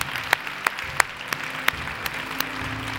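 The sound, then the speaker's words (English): Audience applause at a church service, a steady wash of clapping with sharper individual claps standing out at a fairly regular pace. “Can we give a hand for all those who've given their hearts to the Lord today?”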